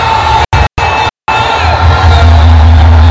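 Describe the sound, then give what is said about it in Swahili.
A crowd cheering and shouting as the Simba football club celebrates winning a championship. Loud, continuous roaring with whoops, broken by a few brief silent dropouts near the start. “Simba wanashangilia hapa, wanamkumbatia kocha wao. Ubingwa Simba umetoa jasho sana. Simba wanashangilia kweli kweli hapa benchi la ufundi.”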